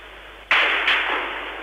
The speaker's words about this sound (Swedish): Och det är mot det fönstret som skotten nu avlossas.